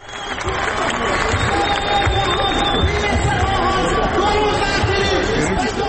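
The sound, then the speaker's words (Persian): Crowd noise from protesting citizens gathered on the parched, dry riverbed of the Zayandeh Rud in Isfahan: a loud, continuous babble of many voices that stays steady and dense for the whole stretch. “این صدای شهروندان اصفهانی است که بر بستر تفتیده و خشک زاینده رود خیمه”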